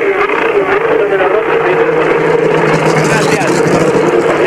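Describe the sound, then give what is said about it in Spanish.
A race car engine revs in neutral as the winning driver pulls in celebrating after the race. It makes a loud, steady, continuous roar with a rough, droning tone that holds throughout over busy background noise. “escucharán de fondo ustedes cómo lo acelera en vacío Nacho Fahín”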